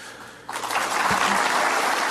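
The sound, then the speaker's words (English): Audience applause after a line in a political speech. After a brief quiet stretch, the clapping breaks out suddenly and carries on at a steady level to the end. “And there's a lot of applause after that line.”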